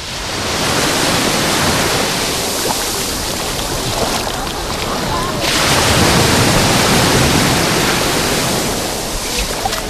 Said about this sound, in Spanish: Pegaditos al Peñón, el mar Mediterráneo, hoy suena así.